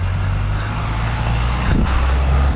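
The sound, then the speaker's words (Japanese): A car engine rumbles steadily in a workplace parking lot, a low continuous drone with a slight swell near the end. “変なおじさんの現れる職場の駐車場にやってまいりました。”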